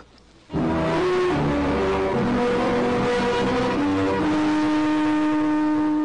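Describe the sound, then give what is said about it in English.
A car engine starts abruptly and then runs loudly and steadily, its pitch shifting as it revs and pulls away from a ranch. “I drove away from the ranch”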